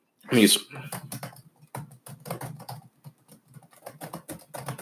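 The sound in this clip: Typing on a computer keyboard, with many quick light key clicks tapping in an uneven rhythm while a voice talks over them.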